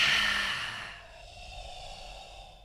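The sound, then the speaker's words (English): A forceful breathy exhale is loud at first and trails off over about a second, leaving faint low hiss. “Take a deep breath in. And then really push it out.”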